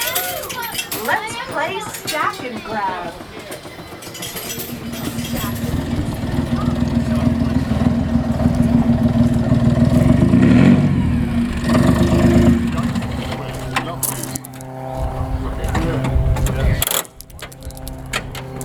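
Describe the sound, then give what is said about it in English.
A supercharged two-stroke diesel engine runs with a steady low rumble that swells through the middle and then eases off, while people talk over it. “What was I listening to there, the engine? What is it? It's a supercharged two-stroke diesel.”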